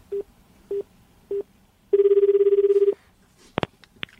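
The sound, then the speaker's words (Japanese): An outgoing telephone call: three short, evenly spaced beeps, then a single ringing tone of about a second, followed by a couple of sharp clicks. “電話しようかなと思いますね。”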